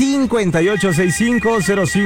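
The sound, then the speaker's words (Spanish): A telephone ringing on a radio call-in line, a thin, steady electronic ring that runs under a continuous speaking voice. “Así es que es tiempo de que suene el teléfono. En este momento está sonando la línea número uno.”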